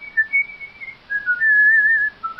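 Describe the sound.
A man whistles a song: clear, pure, high notes, some held long and steady, others short and gliding, carried alone without talk.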